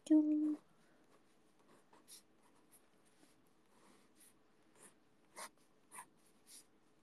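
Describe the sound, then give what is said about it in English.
A pen scratches on paper as someone draws, making a few faint, short scraping strokes spaced irregularly across the quiet after a brief vocal sound at the start. “I'm drawing with a pen. I made a mistake.”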